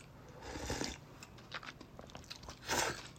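Chewing and crunching while eating Nissin Nakiryu dandan noodles in sesame soup: faint bursts of biting, a longer one early on and another near the end, with smaller clicks between and quiet gaps.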